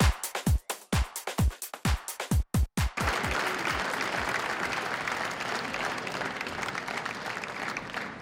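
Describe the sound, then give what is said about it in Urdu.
Applause opens a Sufi music concert in the UN General Assembly Hall in New York, starting with a string of sharp, rhythmic separate claps, then swelling into dense, steady clapping from a large audience. “تالیوں کی گونج اور ملی نغمے پر مبنی دھن سے new York میں اقوام متحدہ کے جنرل اسمبلی ہال میں صوفی میوزک کانسرٹ کا آغاز ہوا۔”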